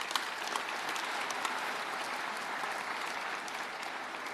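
Audience applause at a 2023 law school commencement, honouring the graduates' families: a thick, continuous wash of clapping at a constant level for the whole clip.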